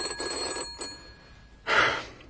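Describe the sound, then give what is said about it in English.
A telephone bell rings in a few short metallic bursts separated by brief pauses, the final burst louder and brighter than the earlier ones. “The telephone, that is. It's ringing”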